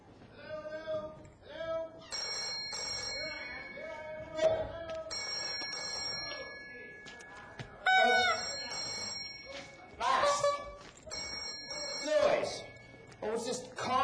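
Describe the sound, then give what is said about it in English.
A mobile phone, issued by the city hall, rings with an electronic ringtone in a few repeated bursts of bright tones. “Telephone thingamabobber that City Hall gave me. Blast that noise.”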